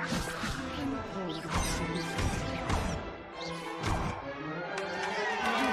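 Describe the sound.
Wizard spells clash in a dueling scene from a Hogwarts video game trailer: loud, dense bursts of crashing blasts and impacts follow one another without pause over a continuous roaring bed.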